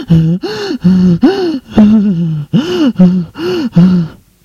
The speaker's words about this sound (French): Ces bruits, ces gémissements proviennent de la chambre de sa mère.